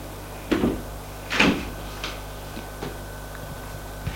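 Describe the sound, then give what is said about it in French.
A door swinging open on a stairwell landing gives two soft thudding clicks close together, then a few faint ticks trail off in an otherwise quiet stillness. “Sur un palier, tout d'un coup, une porte s'ouvre.”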